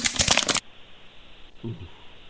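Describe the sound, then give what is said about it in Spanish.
Playing cards are shuffled in a quick, dense riffling burst lasting about half a second, followed by near quiet with a faint low thump. “Barajando cartas.”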